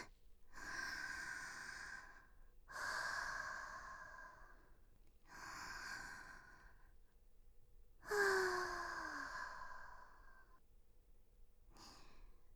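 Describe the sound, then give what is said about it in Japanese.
Deep breathing done together in unison: four long, loud breaths like sighs, separated by short pauses, then the brief start of another at the very end. “それでは皆様、ご一緒に、深呼吸の息合わせっと。”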